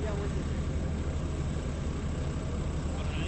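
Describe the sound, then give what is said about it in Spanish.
A city bus engine roars steadily as it revs, a loud, dense rumble that holds at a constant level throughout without clear breaks. “Sí, arriba el colectivo casi. Prácticamente. Escucha ese motor.”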